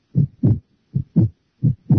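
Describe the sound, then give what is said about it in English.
The heartbeat of a frightened heart: three clear double thumps, each a low lub-dub pair, in a steady, even rhythm with silence between them and no other sound. “Do you hear that sound? It's the sound of a heartbeat. A frightened, terrified heart.”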